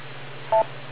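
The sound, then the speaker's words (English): A single short electronic beep from an amateur radio reflector connection sounds briefly over a steady low hum, with no other sounds around it. “You are currently connected to Reflector 9126. Gotta wait for the beep.”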